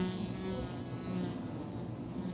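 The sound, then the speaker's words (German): Wasps raiding a beehive in a tree hollow make a faint, steady buzzing of many insects with a low hum beneath it, continuous throughout. “Wespen dringen in die Höhle ein und rauben die letzten Vorräte.”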